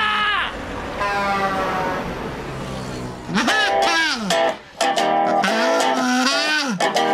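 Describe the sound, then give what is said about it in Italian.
Kazoo being played, a buzzy, nasal tone that swoops up and down in pitch in short melodic phrases during the second half, loud and reedy over a background hum. “Quello che sta suonando il kazoo è la sua anima risorta.”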